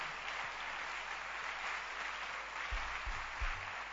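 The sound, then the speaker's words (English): An audience at a church service claps continuously. The applause is faint, dense and steady throughout, with no voices clearly heard. “Keep clapping your hands.”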